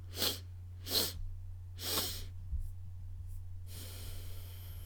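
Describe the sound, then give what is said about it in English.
Three quick, sharp sniffing breaths in through the nose during a breathing exercise, followed by one long, steady exhale through the nose, all soft over a low, constant hum. “Let's do three quick breaths through our nose and a very long exhale through our nose.”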